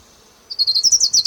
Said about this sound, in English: Ground warbler number 3.